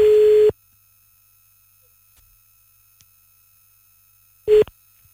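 Ringing tone of an outgoing telephone call, a steady mid-pitched tone that cuts off into about four seconds of silence before a second brief tone sounds.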